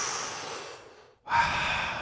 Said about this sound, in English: Maybe everyone can take a deep breath and to start out.